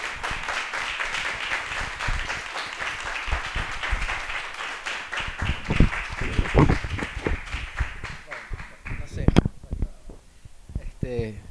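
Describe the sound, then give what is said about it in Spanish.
Audience applause follows the introduction of a speaker at a talk: a sustained wash of many hands clapping that stays dense and fairly loud, with voices heard alongside it and a brief burst of louder clapping near the end. “Un aplauso nuevamente a Mariano Sarabia.”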